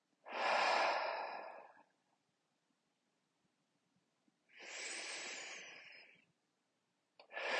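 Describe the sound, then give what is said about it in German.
Slow, deep breathing in and out during a relaxation exercise while lying down: two long, soft, airy breaths separated by a quiet pause, and a third beginning at the very end, with no talking. “Tief einatmen und befreiend ausatmen.”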